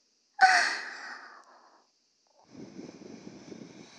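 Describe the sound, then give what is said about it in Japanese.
A soft breath blown into the ear: one airy puff that starts strong and trails away over about a second, then a quieter, rougher breathy hiss after a short silence. “お耳を、ふぅ、どう、お兄さん、結構リアルでしょ。”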